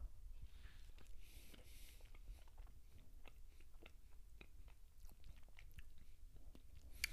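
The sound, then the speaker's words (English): Faint chewing and soft crunching while someone tastes bluebell strawberry gelato, with many small, irregular mouth clicks and bites at a low level throughout. “And so I want to see um, what this bluebell strawberry tastes like. Here we go.”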